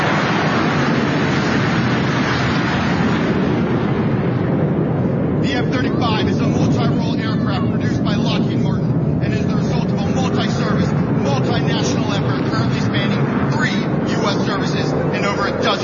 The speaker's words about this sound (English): Here's the next one. It's the Air Force Fleet Review featuring fighter jets and bombers.